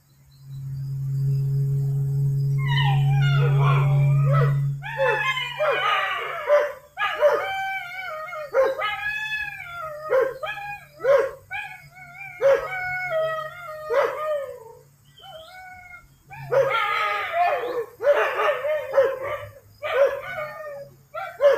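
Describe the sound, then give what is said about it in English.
Neighbour's dogs bark and howl over and over: many loud, yelping barks and drawn-out howling tones in an uneven rhythm, with a steady low hum beneath at the start. “The neighbor's dogs are barking a lot.”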